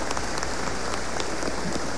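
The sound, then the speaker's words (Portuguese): Applause for the fathers at a church service: steady, dense clapping that carries through the whole moment at an even level, with no voices over it. “Uma salva de palmas aos nossos pais.”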